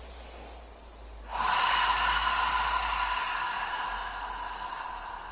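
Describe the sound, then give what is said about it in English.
A deep exhale through the mouth with the belly pulled in, part of a meditation breathing exercise. It is a long, steady, breathy rush that swells after a quiet first second and holds to the end, with no talk. “bring that belly button back into your spine, really just pushing in and exhaling all of that oxygen. Even when you think you've exhaled all the way, keep exhaling.”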